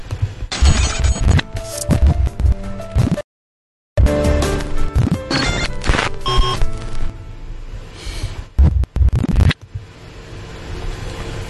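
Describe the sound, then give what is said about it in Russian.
A short intro jingle, dense and busy with beeping electronic textures and thumping hits, broken by a brief moment of silence before carrying on to the end. “мы пока вам запустим нашу замечательную заставочку, и скоро мы к вам вернемся”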